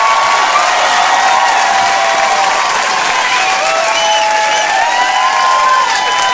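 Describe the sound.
A crowd in Houston cheers and applauds loudly and steadily as a headliner comedian comes on stage, with whistles and shouts over dense clapping throughout.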